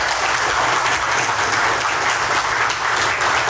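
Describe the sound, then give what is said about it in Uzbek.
Applause in a courtroom as a detainee is freed: loud, continuous clapping from many people, thick and unbroken from start to finish, with no voices standing out. “Videodagi tasvirlarda Shuhrat Sadinovning sud zalidan ozod etilishi to'g'risidagi qaror qarsaklar bilan kutib olingani va sud binosi tashqarisida uni 100dan ortiq odamlar qarsaklar”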